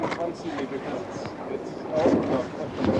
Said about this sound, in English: The wind is westerly. We're beating into it.